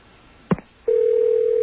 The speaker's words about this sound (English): Remember when every ring sounded different? They all sound the same now.